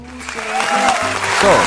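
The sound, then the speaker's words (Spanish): Clapping for a birthday celebration rises over steady musical tones, growing slightly louder toward the end of the short burst. “Un aplauso para agradecer a Dios, para dar gracias a Dios por un año más de vida.”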